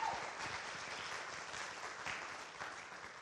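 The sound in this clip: Applause from a church audience welcoming a speaker to the front, a steady, even patter of many hands clapping that holds for the whole short stretch without voices on top.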